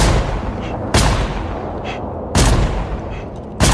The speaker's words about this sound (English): The bullets spark against the distant trash pile.